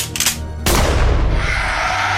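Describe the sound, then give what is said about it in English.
A single loud shotgun blast, fired through a window at a creature, bursts in after a brief quieter lead-in and leaves a dense, roaring decay that fills the rest of the moment. “The shotgun explodes with fire and noise and smoke as you see a flash out the window that illuminates the creature standing there for just a moment until it is blown backwards”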